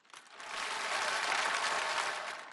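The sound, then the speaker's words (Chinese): An audience applauds at a live comedic performance, a steady, dense wash of clapping that swells quickly and holds evenly throughout, with no voices. “我没想到掌声这么热烈”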